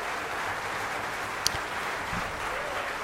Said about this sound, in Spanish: estamos escuchando la música con los aplausos de fondo